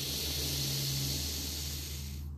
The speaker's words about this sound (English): The more the ah, the more relaxed and grounded you become. Inhaling through your nose.